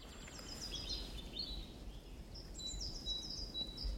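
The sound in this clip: Great tit and other birds singing in a forest: thin, high chirps and short trills repeat on and off above a steady low rumble, with no voices.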